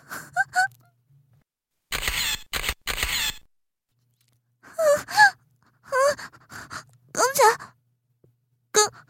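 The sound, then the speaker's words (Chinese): A burst of camera shutter clicks as a photo is taken, several quick snaps in close succession, with short bits of a person's voice before and after. “刚才是不是有拍照的声音？你们在干什么？谁在那里拍照？”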